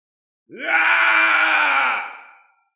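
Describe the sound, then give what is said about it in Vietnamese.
A screaming sound effect: one long, loud howling cry that swoops upward at its onset, holds steady, then fades away. “Tiếng gào thét này vừa xuất hiện”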